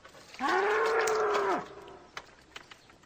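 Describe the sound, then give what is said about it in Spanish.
A bull moos once. It is a single long, loud call held at a steady low pitch that drops at the end, followed by a few faint clicks. “No tenemos vacas. Tenemos un toro.”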